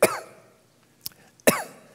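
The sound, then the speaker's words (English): A hacking cough heard twice: a harsh, voiced burst at the start and another about a second and a half later, with a faint click between them and near silence otherwise. “a hacking cough. Don't nobody get scared. I don't have COVID.”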